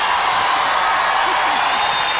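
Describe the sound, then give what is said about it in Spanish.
Audience applause in the Auditorio Nacional concert hall, a dense, steady roar of clapping with crowd noise mixed in. “Y un aplauso, por favor.”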